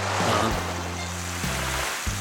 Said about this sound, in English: All at once, my lecture was interrupted by a fire hose torrent of water